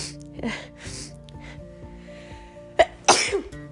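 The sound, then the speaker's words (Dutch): A person with a cold, lying in bed, sneezes: a sharp catch of breath followed by one loud, explosive sneeze over a faint, steady tonal hum. “oh, ik moet ook even niezen.”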